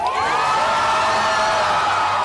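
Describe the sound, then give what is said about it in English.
Crowd cheering in Tel Aviv over freed hostages: a dense, loud, sustained roar of many voices with high whoops rising above it, running unbroken throughout. “Three more Israeli hostages have been freed by Hamas, the release sparking cheers in Tel Aviv.”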